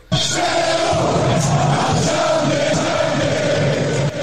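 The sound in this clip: A radio jingle on a Norwegian talk show: a loud, continuous roar of crowd cheering over sustained tones that holds steady for about four seconds, then cuts off abruptly.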